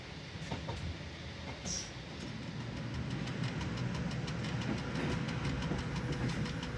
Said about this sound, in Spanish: El tren pasa por viñedos y huertos.